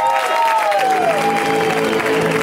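Loud audience applause and cheering greet a comedian at a stand-up comedy show in LA. The clapping is dense and steady throughout, with crowd noise mixed in.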